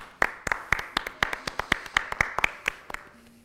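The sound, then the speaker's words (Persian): Rhythmic handclapping, many sharp, crisp claps at an even, steady pace that fade slightly at the end, with no voices over them. “یه دست بزنیم ببخشید”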